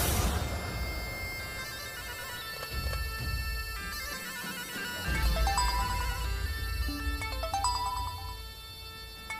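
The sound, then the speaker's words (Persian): A phone ringtone signals an incoming call, a melody of stepped electronic tones that rises and falls in short runs over a steady, loud low rumble, with no voices. “وداد داره زنگ میزنه”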